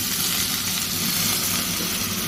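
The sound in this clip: Salmon sears in a hot pan, a steady, dense sizzle with a bright crackling hiss that holds evenly throughout with no voices.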